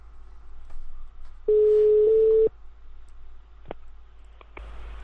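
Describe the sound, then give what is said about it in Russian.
Placing a telephone call: one steady ringback tone lasts about a second, with faint clicks on the line before and after it. “Сейчас мы ему позвоним.”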